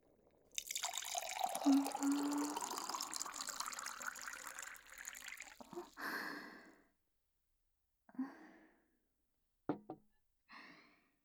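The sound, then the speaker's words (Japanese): Hot water pouring from a kettle into a teapot of tea leaves, a steady rushing stream for about five seconds, followed by a few brief clinks and drips. “入れたお湯が茶葉全体に均等に染み込むよう急須を”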